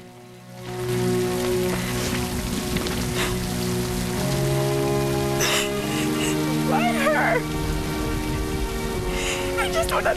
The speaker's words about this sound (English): It's the rain. It's the drops. I can feel it for the first time.